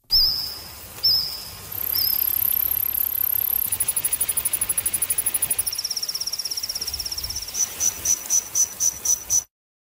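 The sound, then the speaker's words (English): Recreated calls of Jurassic-era insects give high, cricket-like chirps: a few separate chirps, then a sustained shrill trill, then a rapid pulsing trill that ends in a series of evenly spaced chirps. “a co-author of a new study that recreated the sounds made by various species of insects during the Jurassic era.”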